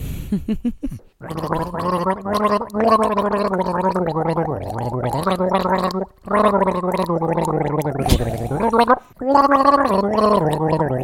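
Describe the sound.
Someone gargles a TV theme tune through a mouthful of wine, a loud, bubbling, voiced melody that runs for several seconds and breaks off in a few short pauses.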